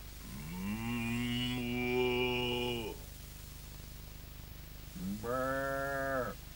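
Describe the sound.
A human voice imitates farm animals: first a long, low, sustained cow-like moo, then, after a pause, a shorter and higher sheep-like bleat.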